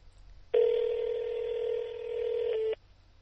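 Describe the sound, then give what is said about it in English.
Phone line tone from a line busy with another call: one steady, unbroken electronic beep at a fixed pitch, lasting a little over two seconds, loud against near silence before and after. “You can tell he's on the line with someone else because it's beeping.”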